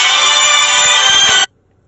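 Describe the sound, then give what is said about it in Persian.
A mobile phone ringtone goes off during a talk. It plays as a loud, sustained electronic tone with dense harmonics, then cuts off abruptly after about one and a half seconds, leaving near silence. “عذرخواهی میکنم، یه زنگ خورد موبایل من.”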